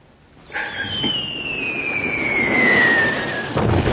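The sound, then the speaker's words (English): A long, high whistle of a bomb falling during an air raid on London slides steadily downward in pitch over a dense, rumbling roar that grows louder toward the end. “It's the bombs! Bombing London!”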